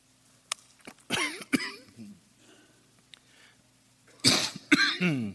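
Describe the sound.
Coughing from a preacher who is choking at the start of an evening sermon: two separate harsh bursts with a quiet stretch between them, each a cluster of hoarse, strained coughs and gasps.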